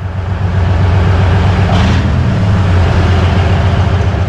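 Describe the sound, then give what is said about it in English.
A Soviet OSA wheeled armored anti-aircraft missile system vehicle drives into cover, its engine a steady, loud, low drone that holds constant throughout, with no voices. “Soldiers from the Biloselkva Air Defense Regiment are driving their anti-aircraft missile system called OSA into cover. This giant Soviet armored vehicle on wheels is a lucrative target for Russian drones.”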